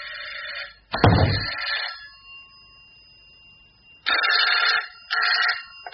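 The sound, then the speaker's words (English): A telephone bell rings in loud, rattling bursts, first at the start, then twice more after a long quiet gap, with a dull thump early on. “Oh, that's the phone. Excuse me.”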